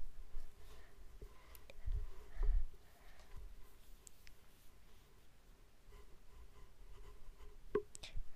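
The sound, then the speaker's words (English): A pencil scratches on paper as squares are drawn: faint, continuous rasping strokes with a few louder bursts of scraping. “So you can draw a few more squares or something”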